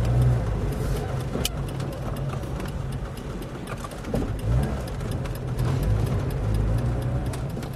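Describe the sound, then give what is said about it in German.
Steady engine rumble and road noise from an old, nearly broken-down car driving along a city's barbed-wire fence. The low drone runs unbroken throughout, with a slight swell of noise around the middle. “fährt uns mit seinem alten, fast kaputten Wagen am Stacheldrahtzaun der Stadt entlang.”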